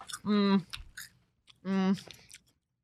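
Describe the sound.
Crunching bites of Cheetos cheese-flavored chips, with soft crackly chewing between two sustained hummed vocal murmurs, leaving quiet gaps in between.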